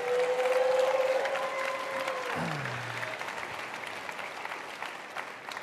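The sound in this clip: Applause from a church audience welcoming its other campuses fills the whole stretch, steady and dense, with a held tone at the start that dies away as the clapping continues.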